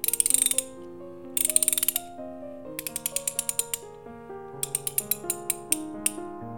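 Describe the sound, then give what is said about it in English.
A socket wrench ratcheting: four bursts of rapid, crisp clicks over sustained, melodic musical tones. “Now, give me socket wrench.”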